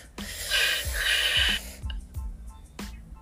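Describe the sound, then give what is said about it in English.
Someone doing a breathing exercise takes two sharp, audible gasps in through the mouth in quick succession. After a pause comes a brief breath released through the nose. The breaths are fairly loud, with no talking. “We're going to inhale through our mouth 2 times. Hold it and then release through our nose.”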